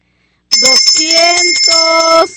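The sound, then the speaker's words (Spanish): A hand bell rung during a church donation announcement gives bright, high, sustained ringing for about two seconds, starting abruptly while a person talks over it. “vamos a agarrar la campana”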